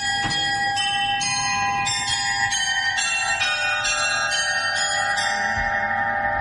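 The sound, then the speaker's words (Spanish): Bells of a medieval astronomical clock inside Münster cathedral ring out a bright melodic run of many struck tones, each note sustaining and overlapping the next, with no other sound. “Así que lo grabé yo este sonido en la catedral de Munster, en el interior, que guarda un precioso reloj astronómico medieval.”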